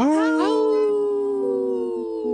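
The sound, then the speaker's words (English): Three wolves howl: a long, sustained howl slides down in pitch at the start and then holds a steady tone, with layered harmonic voices overlapping, moderately loud and without other sounds. “Howl! Right on cue. We have three howlers.”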